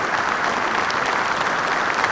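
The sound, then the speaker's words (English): A round of hand claps from a small crowd, dense and even, sustained at a steady level for a couple of seconds. “Hand claps, though. Let's yeah, absolutely. Round of yeah, applause.”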